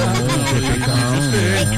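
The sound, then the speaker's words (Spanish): A telephone rings with an incoming call, a loud, continuous warbling ring that fills the moment without pause. “El teléfono es de los grandes. Está entrando una llamada, dame un segundo.”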